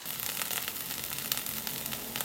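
Eggs sizzling in a frying pan with sriracha sauce, a steady crackling hiss dotted with small pops that holds at an even level throughout.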